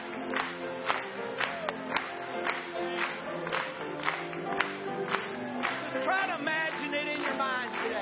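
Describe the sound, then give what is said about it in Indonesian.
An audience claps in steady rhythm, sharp regular claps about twice per second under faint singing voices, all fairly quiet. “Mari kita bertepuk tangan kepadanya.”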